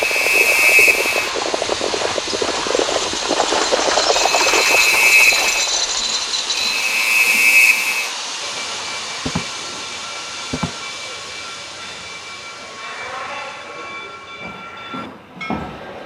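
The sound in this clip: Train with a few loud, sharp whistle-like blasts over a hissing, rumbling run, then settling into quieter running noise broken by a couple of short thuds.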